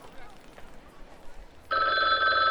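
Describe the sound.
A payphone bursts into ringing after a stretch of quiet murmuring background, a loud, bright, continuous electronic ring that holds steady through the final second.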